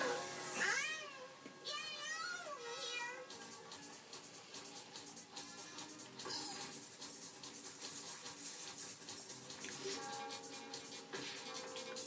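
An angry cat lets out a few strained, wavering meows at the start, then a busy, continuous backdrop takes over; faint overall.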